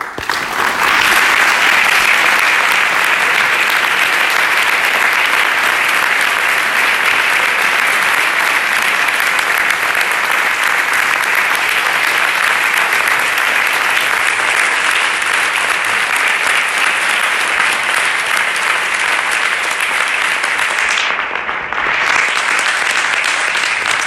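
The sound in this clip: Loud, sustained audience applause as two guests are welcomed onto a stage, a dense, even wash of clapping that holds steady for over twenty seconds with only a brief dip near the end.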